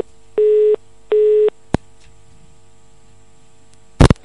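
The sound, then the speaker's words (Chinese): A telephone busy signal sounds after a dropped call: two steady, equal-length mid-pitched tone beeps separated by a short gap, then a sharp single click, and a brief cluster of clicks near the end. “太可惜了，这位听众电话掉线了。”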